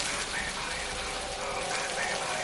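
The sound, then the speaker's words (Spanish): Rain falls in a garden, soaking a person's clothes. It makes a steady, even hiss with no distinct drops, fairly faint and constant throughout. “La lluvia le moja la ropa.”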